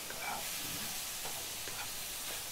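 Tofu sizzles as it is stir-fried in a pan without oil, giving a steady, soft hiss that runs throughout. No voices are heard.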